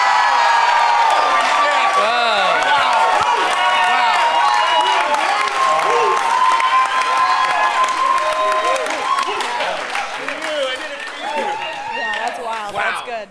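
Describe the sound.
A studio audience cheers and applauds a correct answer with loud, sustained clapping, whoops and shouts that hold strong before thinning toward the end, with voices mixed in.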